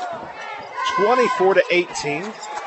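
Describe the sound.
A basketball is dribbled on a court during a game, its bounces thudding under continuous talk.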